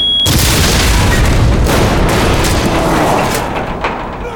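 A booby-trapped briefcase exploding at a gate: a loud, sustained booming blast with dense crackling rumble that holds for several seconds and eases slightly at the end.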